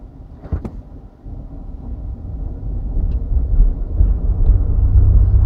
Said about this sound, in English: Driving on cobblestone is weird.